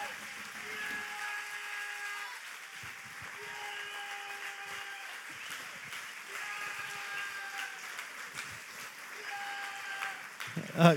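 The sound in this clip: A church audience applauds to welcome a pastor to the pulpit, a long, even wash of clapping with sustained tones running beneath it and a louder burst at the very end.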